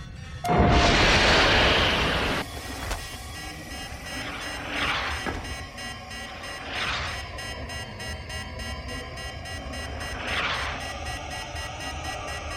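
Sci-fi film sound effect of a torpedo being fired and exploding: a loud blast of noise about two seconds long, followed by a few quieter hissing bursts over a low background hum.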